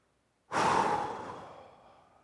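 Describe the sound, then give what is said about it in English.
A single deep breath let out as a long sigh, starting suddenly and then slowly fading away, heard alone with no talking. “sometimes it helps to just take a deep breath.”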